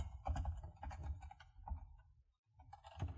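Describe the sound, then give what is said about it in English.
Quiet typing on a computer keyboard, an irregular patter of many key clicks in short bursts, with a brief pause before the clicking resumes near the end. “I can't type lately.”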